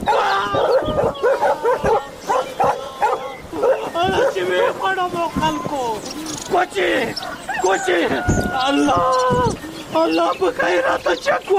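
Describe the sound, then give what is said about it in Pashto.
A dog stands barking in the middle of a road, letting out repeated sharp barks and yelps, while a man talks loudly over it. “خلکو دا سپی د چا دی وی تړی چې ومې نه خوري اوهو دا خو د لارې په منځ کې راته ودرېده”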